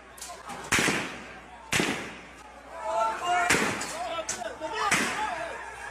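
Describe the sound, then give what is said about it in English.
Gunfire in the Gaza Strip as Hamas shoots at its own citizens: four sharp, loud cracks ring out at uneven intervals, with voices heard between the shots. “And now they're shooting their own citizens in the Gaza Strip. Now, here's what that looked like.”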